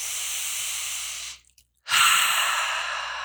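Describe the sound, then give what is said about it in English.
Deep breathing: two long, airy breaths split by a short silent pause, each steady and fairly loud, with no talk. “Take 3 deep breaths.”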